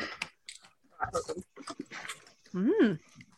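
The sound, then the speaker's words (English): Crunching of a crispy pork rind snack right at the microphone, with a few crisp bites mixed among bursts of conversational talk. “I did that too close to your microphone. ASMR. Snack ASMR.”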